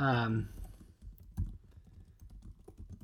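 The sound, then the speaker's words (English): Computer mouse clicks and keyboard typing follow a short burst of speech, with many light, irregular taps continuing quietly to the end. “you can hear me clicking away again”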